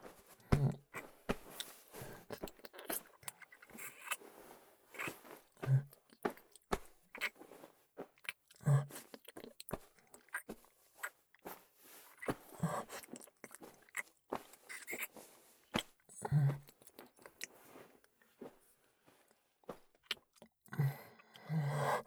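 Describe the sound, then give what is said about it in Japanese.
Licking sounds: many soft, wet mouth smacks and clicks in an irregular rhythm, faint and alone without talk. “ペロペロしてあげるね。”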